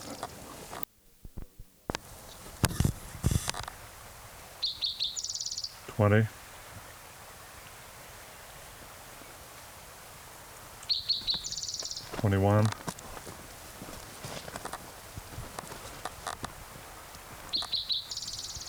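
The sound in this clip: A male bird sings normal clang trills in a few separate bouts of bright, metallic trilling, with long pauses between them and steady insect chirring underneath.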